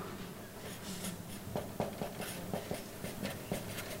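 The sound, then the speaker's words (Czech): Faint handwriting, with scratchy pen or chalk strokes coming in quick, irregular bursts of short scraping marks. “A já to napíšu tady a to bude náš jako jedna”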